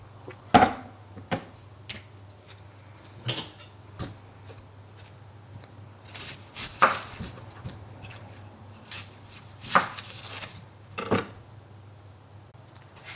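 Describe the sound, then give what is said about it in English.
A knife roughly chops aubergine and onion, giving scattered hard knocks and taps at irregular intervals, with no talking. “Just roughly chop. It's all going to be put in together. Chop an onion.”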